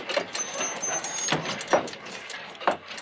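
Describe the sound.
A faulty newspaper printing machine clanks as it runs, with a few heavy mechanical thumps and clatters and a thin, steady whine between them.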